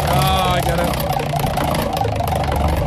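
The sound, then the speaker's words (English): Rapid, even ticking of a spinning prize wheel, a continuous fast clatter heard under people talking. “Hey, let's spin the wheel.”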